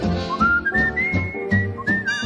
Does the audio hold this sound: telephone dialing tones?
no